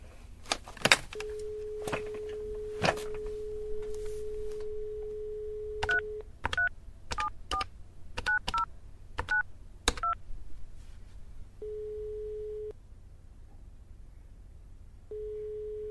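Touch-tone dialing of a call to a welfare office: a few handset clicks over a steady dial tone, then a rapid series of key beeps, followed by two brief tones on the line.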